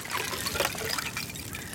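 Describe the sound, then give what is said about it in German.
Water splashes and trickles as someone swims in cold winter water north of Munich, a soft, continuous, fairly faint wash of sound with no voices. “Winterschwimmen klingt mal so.”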